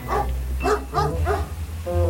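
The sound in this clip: A dog barks a few times in quick succession during a countryside walk along freshly mown hay paths. The short, fairly loud barks sit over a steady low rumble.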